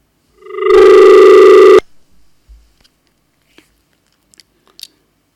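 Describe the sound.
A telephone tone sounds as a call-in line drops: one loud, steady buzzing tone lasting about a second, then a few faint clicks in near silence.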